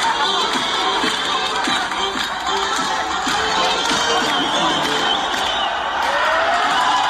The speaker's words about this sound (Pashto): په هرات ولایت کې هم خلک د دې بریا هرکلی ته راوتلي وو او په لارو کوڅو کې اتڼونه او خوشحالۍ